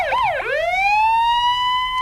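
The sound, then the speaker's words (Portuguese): Emergency vehicle siren wails loudly at a road accident involving a truck carrying pigs. Its pitch rises, dips sharply, then climbs again and settles into a steady high tone with rich overtones, with no talk over it. “estamos com sirene também aí”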